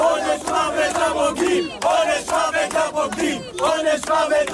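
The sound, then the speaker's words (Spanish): A crowd chants death threats outside a family home, voices shouting together in a loud, rhythmic chant that repeats in regular phrases with brief gaps between them. “Un grupo de acosadores rodeaba anoche el domicilio familiar de la codirectora de Naza, de Raquel Sor, y coreaba, como escuchábamos, pena de muerte a los traidores.”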